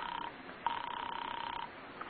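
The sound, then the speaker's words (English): A telephone rings on a call to an apartment, a buzzy, trilling ring lasting about a second after a brief tail of an earlier ring, with another ring just starting at the end; no voices are heard. “You call Ferguson's office. There's no answer. Then you ring his apartment.”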